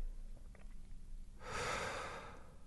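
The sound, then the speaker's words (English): A long, soft, airy breath is let go after being held during a relaxation exercise. After a quiet start, it rises as a broad rush of air and then slowly fades, with no talk. “Hold the breath at the end of the out-breath, relax, listen, and then release and let the breath come in naturally.”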